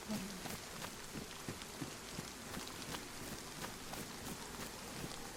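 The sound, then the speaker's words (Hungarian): Rain in a video game falls as a steady, fairly faint hiss of patter, with scattered drop ticks throughout and no pauses. “és megint esik az eső, hogy rohadjon meg”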